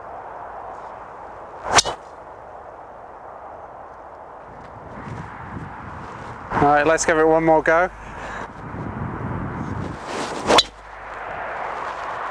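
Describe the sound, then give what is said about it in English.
An Aero Burner golf driver strikes the ball with two sharp, powerful cracks, one near the start and one near the end. A man talks quietly in between over a steady background hum. “I have to say, I do like that sound. It's a nice powerful sound. It's not too loud, but it does let people know that you're there. Overall, I think for the Aero Burner, if somebody who needs a little bit more ball speed, needs some help getting ball up in the air, then this is the club for that.”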